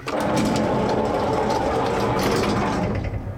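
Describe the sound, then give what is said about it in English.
An elevator motor runs as the car descends to the ground floor, giving a continuous, fairly loud mechanical whir with a fine, rapid rattle that eases off at the very end. “Petra watches the elevator dial until it settles at the ground floor”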